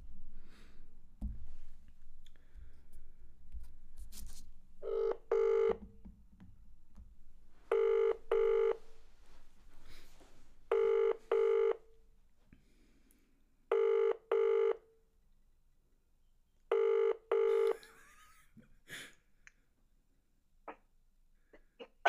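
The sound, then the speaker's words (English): A telephone call ringing out after dialing: five evenly spaced double-pulse ring tones, bright and steady, sound over faint background rustle and handling noise. “So I'm going to give him a call. He's done what everyone else has done. We'll go for it. I'm going to give him a call. Hopefully he answers.”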